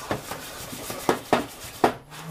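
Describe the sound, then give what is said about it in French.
Spoon stirring a thick, crêpe-like batter in a bowl, with a few sharp knocks and scrapes against the bowl standing out from a soft, steady rubbing. “On remue. Et ça va faire comme une pâte à crêpes épaisse.”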